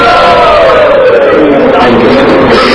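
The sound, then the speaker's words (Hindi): A large crowd of devotees loudly chants Hari Bol in unison to welcome first-time visitors. A dense, sustained roar of massed voices fills the whole stretch at full volume. “तो हम सब लोग इन भक्तों का जो first time आए हैं जोर से हरि बोल करके स्वागत करेंगे।”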